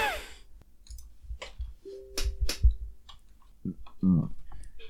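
Light tapping and clicking from someone typing a message on a phone: several soft, scattered taps at an uneven pace, with a brief vocal sound near the end.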